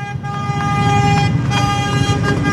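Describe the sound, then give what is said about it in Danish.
Tractor horns honk as the tractors drive past Christiansborg Palace Square during a farmers' demonstration: steady, sustained horn tones overlap continuously above a low engine rumble. “Og det, I kan høre lige nu, det er simpelthen traktorerne, der dytter, mens de kører forbi Christiansborg Slotsplads.”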